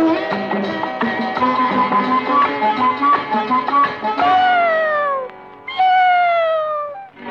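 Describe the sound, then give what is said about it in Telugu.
Cat meowing: a dense run of shorter tonal cries, then two long, drawn-out meows that each slide downward in pitch, with a brief gap between them. “అందాల ఓ పిల్లి అరవకే నా తల్లి”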